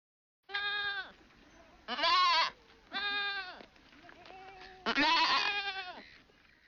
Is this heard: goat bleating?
yes